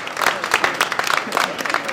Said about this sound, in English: Yesterday, in Salt Lake City, Utah, the last of those surge teams was sent off with applause.